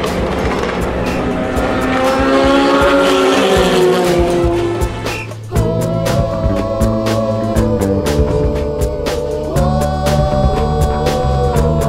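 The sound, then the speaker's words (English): Race car engines lap during the Le Mans 24-hour race in a loud, continuous high-revving howl whose pitch keeps shifting, with a brief dip midway before the roar builds again. “An hour racing at Le Mans, only another 23 to go.”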